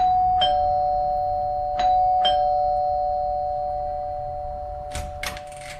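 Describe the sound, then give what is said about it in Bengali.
A calling bell rings at a house door in a narrated story, heard as a few short, bright strikes over a steady background tone, followed by a brief cluster of clicks near the end. “Calling বেলটা দুবার বাজিয়ে দিল”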